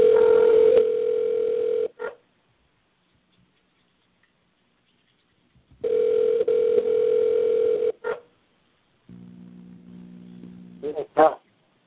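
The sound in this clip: A telephone rings while someone calls a backup number. Two long ringback tones are separated by a gap of silence, followed by a different, lower buzzing tone and a few clicks.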